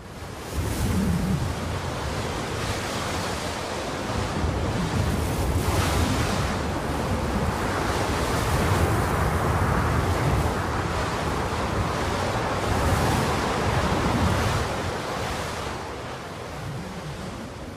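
Strong wind roaring around a house with a chicken coop, a continuous broad rushing noise that surges and eases in long swells without voices.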